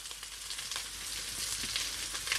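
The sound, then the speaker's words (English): Green beans, ground turmeric and other ingredients sizzle while being stirred around a hot pan: a steady, fairly faint hiss of frying with soft scraping movements, with no voices. “So I'm just going to continue moving everything around that pan, never stop moving.”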